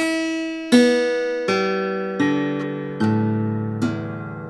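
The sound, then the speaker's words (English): Guitar flipped upside down, its strings plucked one at a time from treble down to bass: six notes step lower in pitch, each struck loudly and left ringing so they overlap. “Now, if a left-hander takes the guitar of a right-handed person and flips it over, suddenly the guitar will sound like this from top to bottom.”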